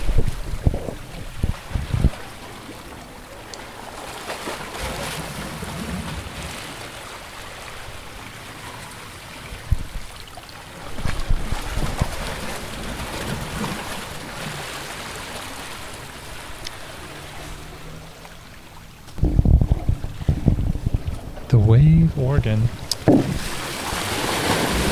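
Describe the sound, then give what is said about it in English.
Water and boat noise on the San Francisco Bay waterfront, a steady wash of waves and wind rumble with faint knocks, swelling louder with choppier splashes over the last few seconds; no one speaks. “San Francisco, we're going to give you just some bay sounds here for a minute.”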